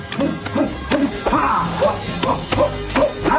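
A dog barks repeatedly at a veterinary clinic, with many short, sharp barks at a fairly even rhythm and some thumping in between.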